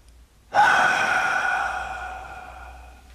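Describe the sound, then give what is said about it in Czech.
A loud, forceful exhale bursts out suddenly and fades gradually over about two and a half seconds. It is breathy and heard alone, with no talk. “Hlasitě vydechněte.”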